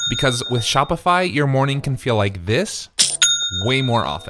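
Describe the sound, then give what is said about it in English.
A bright notification chime, the signal of a sale on an online store, rings twice, once at the start and again near the end, while a voice talks over it. “That's the sound of a sale being made on your new Shopify store.”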